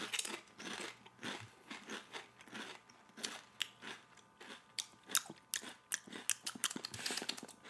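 Air-fried kettle chips crunch as they are bitten and chewed, producing many quiet, crisp cracks in an irregular rhythm that grow denser toward the end. No voices are heard.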